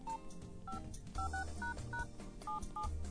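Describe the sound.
Telephone keypad tones beep out a quick, uneven run of many short dual-pitched presses as a number is dialed to place a call, set over a busy low background.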